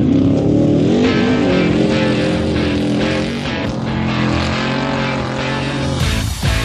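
A racing car engine in motorsports action roars loudly and continuously, its dense, buzzing drone holding steady with slight surges in pitch and a brief dip near the end.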